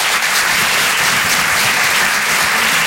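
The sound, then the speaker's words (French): Dense applause from a live comedy audience at the Grand Point Virgule, welcoming a comedian to the stage. The clapping is loud and steady, with no pause throughout. “Merci, cher public. Merci, madame. Rire et Chanson. Faites du bruit, s'il vous plaît, pour Gaëtan Husson.”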